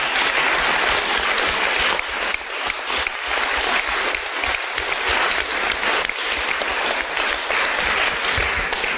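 An audience claps in praise during a bilingual church service. The applause is loud and dense and continues without a break for several seconds, rising and dipping slightly in level but never stopping.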